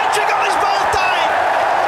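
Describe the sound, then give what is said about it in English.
A cricket crowd cheers as a bowler runs in for a hat-trick ball. The roar is dense, loud and steady from start to finish, with scattered whoops and voices mixed through it. “Here we go. Crowd cheers.”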